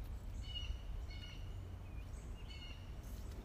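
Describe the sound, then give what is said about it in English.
Faint, high calls of a hawk in the background, a few short repeated bursts over steady low rumbling noise, with no talk. “Do you hear the hawk in the background? Do you hear him? He's in the area.”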